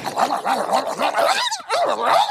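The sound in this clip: A voice imitates a dog fight with a rapid run of snarling barks and growls, loud and nearly continuous, broken by a brief gap before more snarls.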